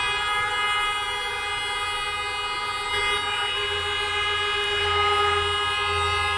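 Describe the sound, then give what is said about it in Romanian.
Taxi car horns honk together in a dense, sustained blare, many overlapping steady tones merging into one loud chord that runs without a break for several seconds. “Ce frumos, ce frumos cântă claxoanele. Toți taximetriștii sunt de la tine, de la firmă, de la Taxi Club?”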